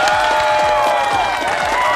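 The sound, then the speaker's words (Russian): Loud, continuous applause fills the moment, a steady wash of clapping with a sustained tonal layer beneath it. “Я вас поздравляю. Эти аплодисменты вам.”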